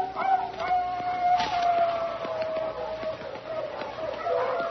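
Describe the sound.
Baying of a female hunting hound out in front of the pack in Missouri, long drawn-out howling cries with a sustained tone that slowly sags in pitch, heard alone on a thin, band-limited recording.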